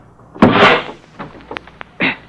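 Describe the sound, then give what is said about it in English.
A door being forced open on a wrecked car: a heavy scraping thud, a few sharp metallic clicks, then a final dull knock, loud and without talk. “Just get this door open.”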